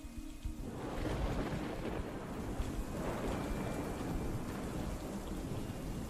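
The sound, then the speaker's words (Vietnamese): Heavy rain pours down in a dense, continuous hiss while thunder rumbles low and unbroken beneath it, holding a steady level throughout. “trên trời nổi lên những tia chớp sáng rực cùng với tiếng sấm sét đì đùng.”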